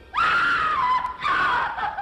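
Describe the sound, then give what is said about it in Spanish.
A horrible scream comes from inside a room: two loud, drawn-out, high cries with a short break between them, with no talk over them. “¡Cielos! Alguien está muriendo ahí dentro. Cálmate. ¿No has oído un grito horrible?”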